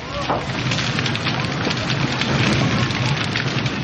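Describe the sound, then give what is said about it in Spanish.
Wooden factory buildings burn in a large blaze, producing a dense, continuous crackling and popping over a loud, steady roar that stays even throughout. “La hermosa factoría está siendo pasto de las llamas. Todas las instalaciones fabricadas en madera arden con gran facilidad.”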